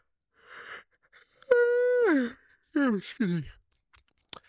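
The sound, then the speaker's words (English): A person yawning, with a long voiced tone held steady and then sliding down in pitch, followed by two shorter voiced sounds that also fall in pitch, with soft breathy noise before and no words. “Side note, when you yawn, please cover your mouth.”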